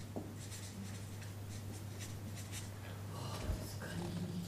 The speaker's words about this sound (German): Ich schreibe es deutlicher, verzeih.